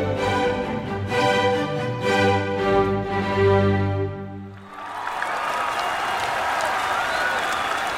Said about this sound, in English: a crescendo of cheers, chants, and applause resounded across the park.